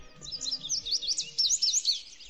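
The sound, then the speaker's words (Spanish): Small birds chirping in a quick, high-pitched run of many short tweets that continue across the whole span, with no voices. “Y hablamos de pajaritos precisamente porque te vamos a contar la leyenda del pardalote San Juan, que es el pájaro de San Juan.”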